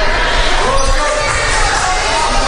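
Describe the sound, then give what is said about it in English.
A basketball is bounced by a player at the free throw line during a game, the dribbles set within loud, continuous crowd noise from the gym. “Bounces the ball, flies.”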